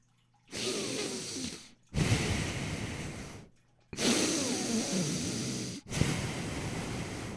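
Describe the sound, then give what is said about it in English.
A voice imitates loud snoring, mimicking a brother sleeping across the room in the middle of the night: four long, rough, rasping breaths with short gaps between them, loud and with no other sound. “My brother across from me sounds like he's over there trying to win the fucking breathe hard competition. Motherfucker's snoring up a fucking storm.”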